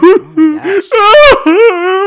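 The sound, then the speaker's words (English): A voice imitates the audible sobbing of people crying in a movie theater, with a few drawn-out, wavering wails and whimpers in loud, uneven bursts. “And there was like 10 other people in the theater with us. They were all sobbing,”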